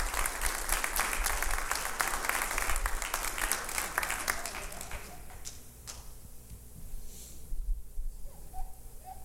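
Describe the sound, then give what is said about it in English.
Audience applause at a church service welcoming a guest preacher: dense, loud clapping that thins and fades through the second half, then swells briefly again near the end. “Y'all put your hands together.”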